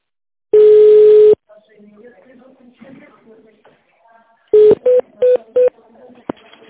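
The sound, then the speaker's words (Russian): Telephone keypad tones dial an extension number on a company's automated phone line: one long tone, then four short beeps in quick succession, with faint murmuring sounds in between. “Если вы знаете добавочный номер, наберите его в тональном режиме.”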